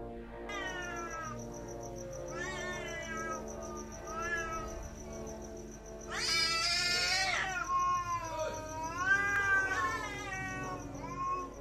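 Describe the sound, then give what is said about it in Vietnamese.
A black cat yowls at night from a banyan tree, giving a series of drawn-out, wavering wails. A harsher, louder cry comes near the middle, with no voices. “bỗng nhiên trên cây đa có một con mèo đen kêu xé lên một tiếng. Tiếng mèo kêu trong đêm nghe đến rùng rợn, như là tiếng trẻ con khóc đang kêu gào.”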